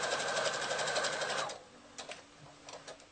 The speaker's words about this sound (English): that's the size of the foot that I have on my machine. So I can use the edge of the foot as a gauge. So I'm sewing all the way across the top, sandwiching those straps in between.